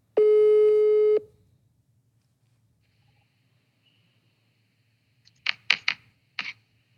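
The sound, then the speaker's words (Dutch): Ringing tone of an outgoing phone call placed to someone on the other side of the world, in Hawaii: one long, steady electronic tone lasting about a second, then silence, followed near the end by a few short bursts of noise. “Maar ik denk dat we hem gewoon even gaan proberen op te bellen.”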